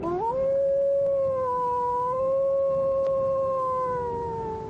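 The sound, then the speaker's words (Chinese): A single long, mournful wolf howl from high ground, rising quickly at the start and then holding a loud, steady wailing tone for several seconds before easing slightly lower at the end. “只听高处一声凄厉的狼嚎，嚎声悲愤苍凉，怨毒难言。”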